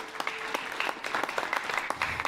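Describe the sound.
Audience applause for the worship team at a church gathering in Edmonton: a steady wash of many hands clapping, with sharp individual claps poking through, sustained at an even level for the whole two seconds.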